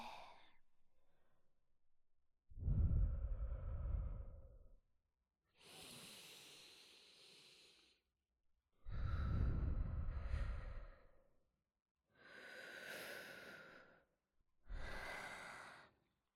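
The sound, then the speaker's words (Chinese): Slow, deep breathing alternating between long inhales and exhales, about five or six drawn-out breaths separated by short pauses, each swelling and easing in loudness. “跟着姐姐一起深呼吸。呼，吸气”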